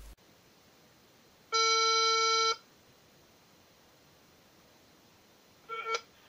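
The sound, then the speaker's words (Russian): Electronic telephone tones as a call is placed to a seller about a used car: one steady, buzzy tone lasting about a second, then after a long pause a short, louder burst of beeps, over faint background hiss. “давайте позвоним и пообщаемся с ним теперь по телефону.”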